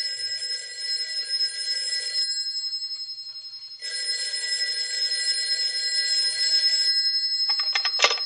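Telephone bell ringing with a high metallic jangle in two long rings separated by a short silent pause, alone with no talk over it.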